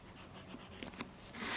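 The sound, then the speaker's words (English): Pencil sketching on paper, a faint, continuous scratching with a few light, brief strokes that grows slightly louder toward the end. “gives me a quick demonstration of his sketching”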